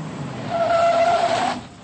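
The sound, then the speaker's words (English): An expensive car drives by with a brief, high tire squeal riding over a rough engine hiss, swelling in the middle and fading away within two seconds. “Then a movie director drove by in an expensive car.”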